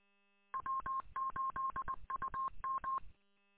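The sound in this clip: Rapid automatic telephone dialing: a quick run of many short, steady touch-tone beeps in an even rhythm with brief gaps between them. No voices are heard.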